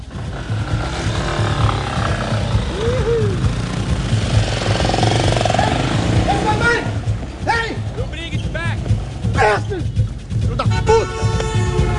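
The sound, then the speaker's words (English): A moto taxi's motorcycle engine runs steadily throughout, a low droning hum with a rough rattling edge. People talk over it the whole time. “Man, it's a moto taxi. It's Angela's boyfriend's moto taxi.”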